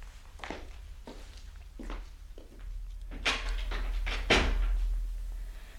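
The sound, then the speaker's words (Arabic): A door being closed as a radio drama sound effect: soft footstep-like thuds, then louder knocking bumps and a heavier clunk over a low steady hum. “بس استني بقى أما أقفل الباب ورايا.”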